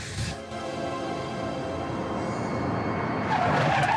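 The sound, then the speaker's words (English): Tires screech as a car skids to a stop, a sustained harsh squeal over a steady engine tone that grows louder toward the end. “Some time later, Kavanagh screeches up in her car.”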